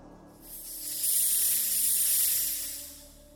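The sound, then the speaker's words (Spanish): Doors open with a pressurised hiss: a steady, bright rush of air swells in after about half a second, holds evenly, then tapers off near the end. “Abriendo puertas en 5, 4, 3, 2,”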